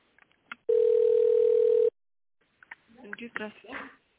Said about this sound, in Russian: Ваш звонок будет направлен секретарю.